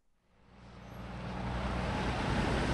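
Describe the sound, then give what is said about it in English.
Steady roadway traffic at a snowy corner of 7th and Pennsylvania Avenue in downtown Washington during a cold wintry mix, a broad rushing wash that swells over the first second and then holds loud and even, with no voices. “I'm on the corner of 7th and Pennsylvania Avenue in downtown Washington. It's cold and snowing, the kind of glop that is produced by the dreaded wintry mix.”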